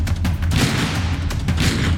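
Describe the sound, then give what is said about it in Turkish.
Gunfire from a helmeted gunman shooting at a mixed martial arts champion outside a gym: a few sharp cracks within loud, dense, continuous noise. “MMA şampiyonuna böyle ateş etti.”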